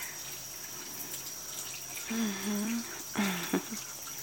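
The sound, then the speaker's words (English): Running water rinsing a face and hair, a faint, steady wash with a few louder splashing bursts toward the end. “And rinse you off. Rinse your face. And your hair.”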